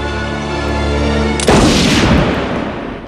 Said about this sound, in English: Elsewhere in the museum, Berger and the curator hear the shot.